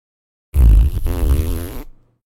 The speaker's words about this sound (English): she has ripped the longest fart I've ever heard a cat fart